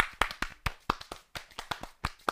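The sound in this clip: Clapping for a guest on a stage show: about eleven separate, crisp hand claps in an uneven sparse series, loud and alone without voices.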